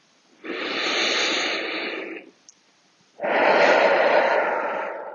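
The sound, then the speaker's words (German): Two long, deep, audible breaths during a guided meditation, one drawn in and one let out, each lasting nearly two seconds, with a quiet gap between them. “Nimm nochmal drei tiefe Atemzüge.”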